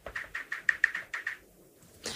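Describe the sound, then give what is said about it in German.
Typing a query on a computer keyboard, a quick, even run of keystrokes that stops, followed after a pause by a sharper sound at the end. “Moment, ich tipp's mal ein. Tipp's mal eben ein.”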